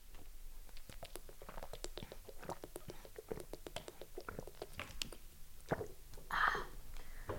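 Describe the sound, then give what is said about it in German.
Someone drinking from an ordinary water bottle, giving many small, quick clicks and gulps in an uneven rhythm, with a brief louder squeak-like noise near the end. “So, ich muss mal kurz was aus der Normalwasserflasche trinken.”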